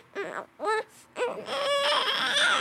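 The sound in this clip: A person imitating an infant's cry on request: three short wailing bursts, then a longer sustained wail with a breathy, strained texture.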